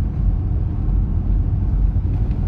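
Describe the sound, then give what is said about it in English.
A car drives along a road with a steady, low rumble of engine and tyre noise that stays continuous and even throughout, with no talk. “So here I am driving to Los Angeles.”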